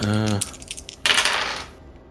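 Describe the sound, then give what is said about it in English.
Dice rolling across a surface: a brief voice, then a short burst of clattering that fades out within about a second. “I'm about to roll some dice”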